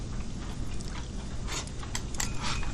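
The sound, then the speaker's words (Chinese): Someone eating food at a meal, with soft bites and chewing that repeat in an irregular rhythm and are faint to moderate over a low background. “那么多好吃的菜，你不吃可就便宜我了。我吃，阿姨。”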